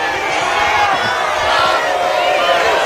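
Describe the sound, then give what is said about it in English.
Crowd booing at a Trump rally in Pickens, aimed at Lindsey Graham: a dense, loud, unbroken roar of many voices that holds steady for about three seconds. “Lindsey Graham once again got booed in front of President Trump. And, of course, we all remember what happened in Pickens on that day.”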